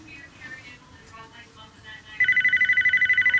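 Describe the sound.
A telephone rings beside a couch in a condo living room: a bright electronic ring made of a rapid, steady series of pulsing tones that starts after a stretch of quiet talk and continues to the end.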